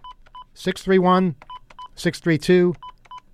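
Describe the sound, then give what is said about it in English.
Telephone keypad dialing tones: a quick series of short, clean electronic beeps in small clusters. A man talks over and between them. “look what happens when you try to call you guys at your new phone number. I'm going to demonstrate this right now. If you call”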